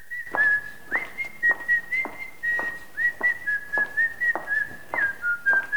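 A woman whistling a tune while walking along a hospital corridor, a clear high series of short, evenly paced notes at a fairly steady pitch, heard alone.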